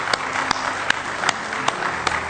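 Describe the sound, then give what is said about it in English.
A church audience claps hands in praise with a few sharp, separate claps spaced roughly evenly over a steady low background hum, sparse rather than a full round of applause. “Let's just give Him a real good hand clap of praise tonight if you love Him.”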